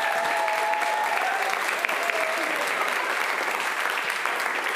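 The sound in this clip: A church audience applauds during a Baptism Sunday service, with dense, even clapping that holds steady throughout.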